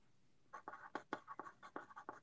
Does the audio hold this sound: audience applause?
no

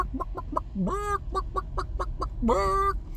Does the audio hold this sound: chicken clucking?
yes

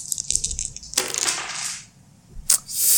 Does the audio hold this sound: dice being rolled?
yes

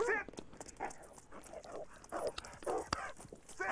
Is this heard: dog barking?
yes

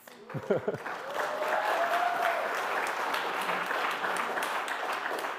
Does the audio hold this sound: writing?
no

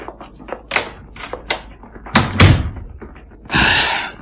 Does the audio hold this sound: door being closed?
yes

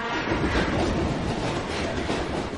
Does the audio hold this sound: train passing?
yes

